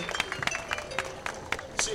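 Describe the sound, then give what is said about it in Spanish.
Scattered hand claps from an audience at a state fandango dance contest, applauding the competing couples: sparse, uneven claps mixed with crowd chatter and voices. “¿Pero qué les parece si se les aplaude a estos participantes?”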